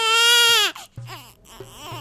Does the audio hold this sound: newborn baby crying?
yes